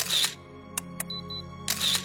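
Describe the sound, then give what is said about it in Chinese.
Camera shutter clicks and whirring bursts as a young forensic examiner photographs part of a corpse at a crime scene: a whir, two sharp separate clicks, then another whir, crisp and fairly loud with no talking. “替原交代身旁的一个年轻的鉴定人员对这个部分拍照。”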